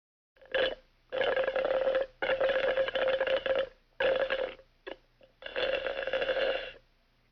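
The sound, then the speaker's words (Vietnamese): Juice is slurped through a straw in a series of loud, gurgling sucking bursts, several long pulls separated by short silent gaps, with a couple of brief sips near the end and no other sound. “Câu vừa rồi có thể hiểu là em gái tôi đang hút nước ép chụt chụt qua ống hút, giống như là đoạn âm thanh sau đây.”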